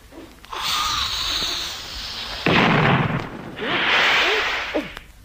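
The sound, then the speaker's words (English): A device explodes after people are told to stand back. A rushing, hissing roar builds, then a sudden loud blast bursts out, followed by more loud hissing that fades near the end. “It's due to explode now. Careful.”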